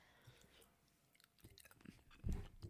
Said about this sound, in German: komisch zum Podcast essen. Ähm, ich meine, trinken ist ja schon in Ordnung, aber essen, da hört man auch alles.